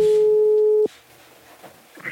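Telephone ringing tone heard while a call is being placed: a single steady, even-pitched tone that cuts off abruptly, followed by faint, quiet line noise.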